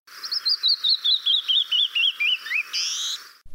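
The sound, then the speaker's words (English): A male canyon wren gives a long series of clear, whistled notes that step steadily downward in pitch, ending in a buzzier, drawn-out final note. “You study the canyon wren. Let's hear the difference between the male and the female calls in that species. So first, let's hear the male call.”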